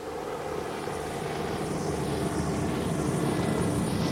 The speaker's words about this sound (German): Soweit das Auge reicht, sieht man russische Hubschrauber. Dicht wie schwarze Heuschreckenschwärme kommen sie auf uns zu.